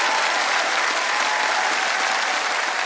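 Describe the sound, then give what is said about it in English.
Audience applause welcomes a singer onto the stage, a dense, steady wash of clapping that holds at an even loudness throughout without a break. “Will you put your hands together and give a wonderful welcome to the one and only, the lovely Miss Mary Duff.”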